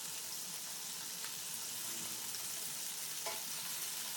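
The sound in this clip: Food frying in a pan, a steady, even sizzle with a constant bright hiss that holds level throughout, with no talk over it.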